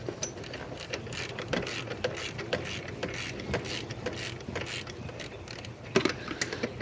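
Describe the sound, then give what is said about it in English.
Ratchet clicking as an old idler pulley bolt is worked loose in a tight engine space, a fairly steady run of rapid mechanical clicks and scrapes at moderate level, with a sharper burst near the end and no talk. “Ratcheting off the old idler pulley.”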